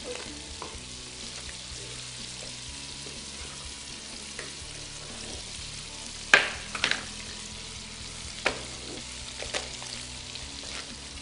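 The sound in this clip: Food stirred in a frying pan with olive oil, butter and Parmesan gives a soft, steady sizzle, broken by a few sharp clacks and scrapes of the utensil against the pan, one clearly louder than the rest.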